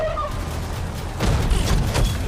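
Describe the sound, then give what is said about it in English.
Gunfire as a tech squad shoots at a spaceship in a film: after a quieter opening stretch, a loud burst of rapid, booming shots breaks out and continues to the end. “The tech squad fires at the spaceship.”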